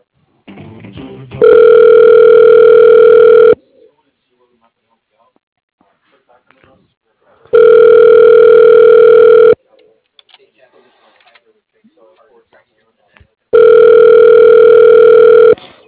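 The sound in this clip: Telephone ringback tone as a call is transferred to voicemail: three long, steady rings of about two seconds each, separated by quiet gaps with faint line noise.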